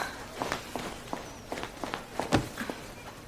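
Running footsteps of a girl hurrying after her teammates on the way to lacrosse practice: many quick, faint, irregular steps, with one somewhat louder footfall near the end.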